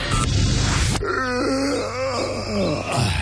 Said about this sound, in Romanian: Căscatul e contagios, băi.